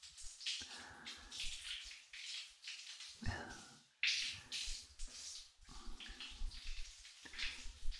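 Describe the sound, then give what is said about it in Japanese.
Water splashes and pours in a bath as someone is rinsed off, in several bursts separated by short pauses, with no talking. “よしよし、一回流しちゃおうか。”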